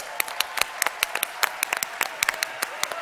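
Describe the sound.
An audience applauds as a couple is welcomed onto a stage: many sharp, crisp claps in a loose, uneven rhythm, fairly sparse, as if from a modest crowd.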